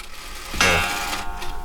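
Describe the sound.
An old parish-house clock strikes once, a single bright chime with a sharp onset and a ringing tone that slowly fades over steady background noise.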